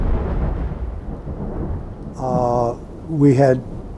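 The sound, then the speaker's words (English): A tornado-strength storm with thunder, wind and rain at an outdoor music festival: a continuous low, rumbling roar fills the first half, and voices rise over the storm noise in the second half. “it was a tornado, and there was wind, there was rain.”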